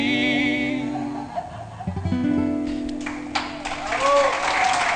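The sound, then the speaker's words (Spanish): Applause for a young tango group follows a stretch of tonal, music-like sound. The clapping builds in the second half into a dense, loud patter, with a little laughter mixed in. “Los aplausos que suenan son también de Barsut, el grupo de tango”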